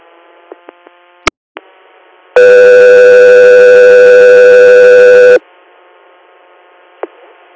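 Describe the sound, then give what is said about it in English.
A radio dispatch alert tone sounds on an ambulance transport channel: a few faint clicks and short blips, then one loud, steady, buzzy tone held for about three seconds, followed by a soft click. “Echo 3 here, stand by for tones.”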